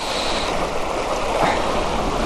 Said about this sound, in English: The water's not deep, but it is quite rapid, and I don't want him to get swept away.